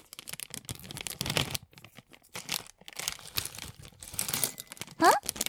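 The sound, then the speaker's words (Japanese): Pistachios being handled and shelled at a table: crinkly rustling and small crunches come in bursts, with a brief pause partway through and a cluster of sharp clicks near the end. “ん？何してるのって？ピスタチオ。どうするのって？食べるの。”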